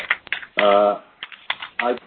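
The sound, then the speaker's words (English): Keyboard typing during an online conference call: a few sharp, dry taps and clicks scattered across the moment, with a brief voice-like tone in the middle. “Can we ask people to mute if they're not talking? Someone's typing away.”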